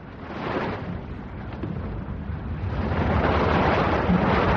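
Choppy sea waves and wind make a continuous churning, rushing surge that grows steadily louder toward the end, with no voices.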